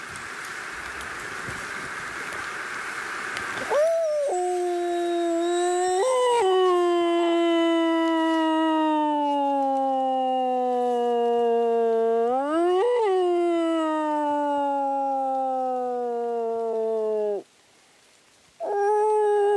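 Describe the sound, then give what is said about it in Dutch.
A wolf howling: one long, tonal howl with a few brief pitch bumps and a slow downward drift, then a short break before another howl begins. A stretch of steady hiss comes before the first howl. “Soms bijvoorbeeld een sirene van een ambulance kan soms een wolf tot huilen zetten. En soms ook dus menselijk huilen kunnen ze op reageren. Dus dat gaan we even proberen.”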